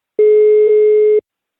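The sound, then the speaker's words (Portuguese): A telephone ringing tone sounds as a call is placed: one steady, mid-pitched electronic tone lasting about a second, clean and alone, with a tiny dip partway through. “tá chamando Guilherme”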